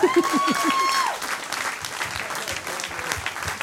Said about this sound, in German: Ich erwarte an dieser Stelle einen Applaus vom Publikum.